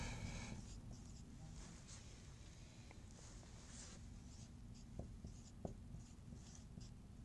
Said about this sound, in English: I'll write out those terms.